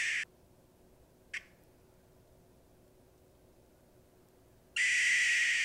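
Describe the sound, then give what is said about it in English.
A barred owl's alarm call: harsh, hissing, high-pitched bursts, with one at the start, a brief squawk shortly after, then a loud sustained call at the end, separated by long quiet stretches. “That doesn't sound like a barred owl. So that's one of their calls. Yeah. It sounds like that's like a alarm. Yeah, that's the alarm call.”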